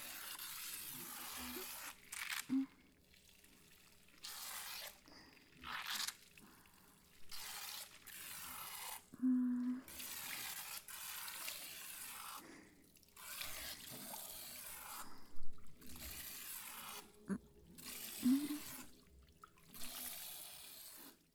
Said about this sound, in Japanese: 洗い流していくよ。お湯は熱くない？